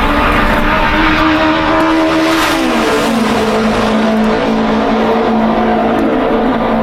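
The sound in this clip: Race car lapping a track through a turn and along a straightaway: a loud, continuous engine roar with strong tonal whine throughout, the pitch dropping slightly partway through.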